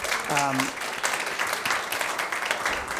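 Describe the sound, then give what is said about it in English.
Applause from a church audience, a dense and steady patter of many hands kept at moderate volume throughout, with a brief voice heard near the start. “if you're visiting at St. Andrew's, we don't often applaud people. We just applaud Jesus here mostly.”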